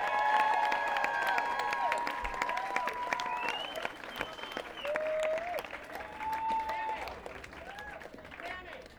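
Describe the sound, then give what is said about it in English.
Applause and cheering from a concert audience for the sound man, a steady dense clapping that holds for about nine seconds, with crowd voices mixed in. “Let's give a big hand to Blaze, the wonderful sound man.”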